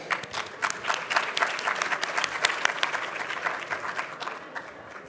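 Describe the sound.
A crowd applauds to welcome a speaker at a cannabis business presentation, with many hands clapping and a few sharper individual claps standing out. The clapping stays lively for several seconds, then thins and fades at the end.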